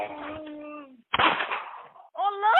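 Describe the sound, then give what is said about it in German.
A single gunshot in a recording of a man being killed: one sharp, loud crack right after a raised voice breaks off, followed by a decaying rumble and then a strained, moaning voice. “Es wird geschossen, der Mann stöhnt auf.”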